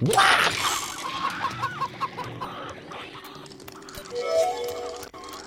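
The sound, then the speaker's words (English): Chickens cluck in a video game, a loud squawk at the start followed by many quick, rhythmic clucks that thin out and then swell again near the end, with no clear speech. “Release the chickens, race to the note, and come back.”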